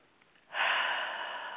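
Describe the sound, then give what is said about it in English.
A single deep inhale during a guided meditation, starting after a brief near-silence and then drawn out as a strong, steady airy rush that eases off only slightly toward the end. “Take a deep breath.”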